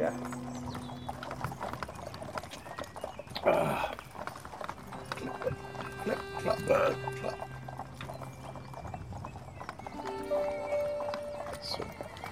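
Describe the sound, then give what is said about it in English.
A horse's hooves clip-clop steadily as it travels a trail leading away from a small town. The even rhythmic hoofbeats run throughout, and a couple of whinnies break in over them. “You start along the travel by horse, leaving the wonderful little town of Hamlet behind nice.”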